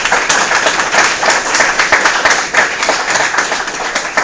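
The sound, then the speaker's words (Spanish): Audience applause after a conference talk on an open-source mapping library project: dense, steady clapping from many hands, loud and even throughout the four seconds. “Un aplauso, por favor, para el señor.”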